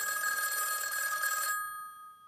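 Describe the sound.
A telephone rings with a sustained, bright electronic bell tone for about a second and a half, then cuts off abruptly, leaving only a short fading tail and faint background.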